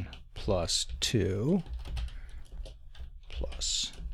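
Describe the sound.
Typing on a computer keyboard: many quick, crisp keystroke clicks in an irregular run, mixed with other sounds.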